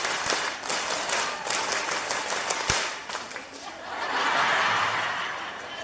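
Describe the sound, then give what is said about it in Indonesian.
A group performs a rhythmic scout clap, with sharp handclaps in quick patterned bursts followed by scattered applause, chuckling and crowd murmur. “Tepuk satu. Tepuk dua. Tepuk tiga. Tepuk pramuka.”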